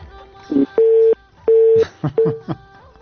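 Telephone busy tone after a call is cut off: a few steady, mid-pitched beeps of even length separated by short gaps, mixed with brief clicks and rustling.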